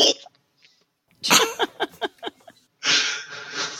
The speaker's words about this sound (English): So when I hiccup, it's like, if I feel like I'm getting hit in the chest and the noise is something like,